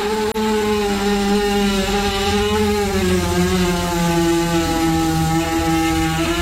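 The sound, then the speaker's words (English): Horse passing gas: one long, loud, continuous buzzing blast with a strong harmonic tone whose pitch drifts slowly downward, heard alone without talk. “If you guessed a chainsaw, you'd be incorrect, because that is horse flatulence.”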